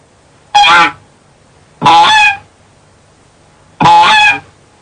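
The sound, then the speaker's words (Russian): Goose calls ring out alone: three loud, evenly spaced honks, each a harsh, nasal, buzzing call of about half a second. “Призыв, который гусь издает, когда он находится на воде или в воздухе,”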